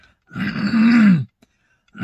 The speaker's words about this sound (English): sorry, I'm clearing my throat, not him.